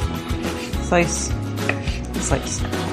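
Knife slicing olives being prepared for enchiladas alongside leftover chicken, baked beans and green chilies: a few soft, uneven chopping taps.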